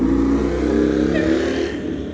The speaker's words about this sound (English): then what appears to be the loudest motorcycle in the world, fucking just driving.